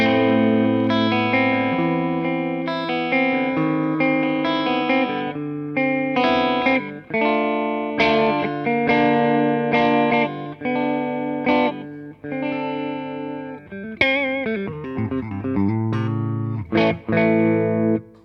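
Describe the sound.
Clean-toned electric guitar with both pickups selected together, played alone as a steady run of ringing chords and single notes with long sustains. A few sharper attacks and quicker picked passages come near the end.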